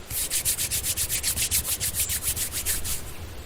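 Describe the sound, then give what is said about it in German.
Palms rubbing briskly together make a dry, hissing swish, repeated in rapid, steady back-and-forth strokes with an even rhythm and a fairly loud level throughout. “Schließen Sie nun Ihre Augen. Reiben Sie Ihre Handflächen aneinander”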